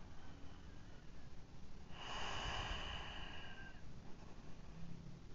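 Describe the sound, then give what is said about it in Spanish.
A single slow breath out through the nose during a calm relaxation pause: a soft, airy hiss lasting about two seconds, rising out of near silence and fading again. “Y sale ese aire nuevamente por mi nariz.”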